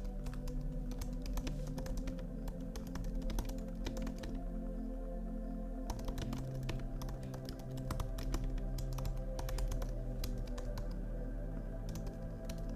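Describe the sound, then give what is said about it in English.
Keyboard typing, with many quick soft clicks coming in uneven bursts, faint and alone with no voices. “But my question for you, let me type it out because I can't really multitask.”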